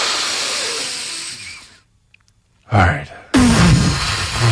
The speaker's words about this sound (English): Take a breath. Please, big breath. Breathe in. Another one.